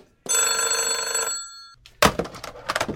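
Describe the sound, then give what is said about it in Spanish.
A telephone rings with an incoming call from a commander, giving one sustained, bright electronic ring that fades out. After a short pause, a burst of noisy, uneven sound follows. “Chama comandante, mama. Tenho que contestar.”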